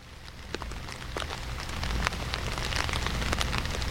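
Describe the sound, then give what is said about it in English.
Steady rain falls as background sound, a continuous dense patter of drops with scattered sharper ticks. It builds slightly in loudness after the first couple of seconds and then holds even. “trying to summon some rain with this background, these background sounds you're hearing”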